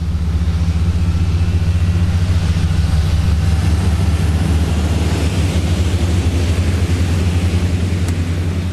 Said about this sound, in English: The smoke is caused by a protective layer of oil burning off as the engines are run one by one.